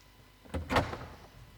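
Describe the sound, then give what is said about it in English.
A door is opened with a brief cluster of soft clunks and rattles peaking in under half a second, faint against a quiet background. “We'll open the door. We'll let some fresh air in.”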